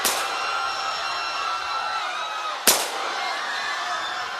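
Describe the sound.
Two gunshots fired from a gun, each a sharp, loud crack with a long trailing decay, spaced about two and a half seconds apart over a steady noisy background.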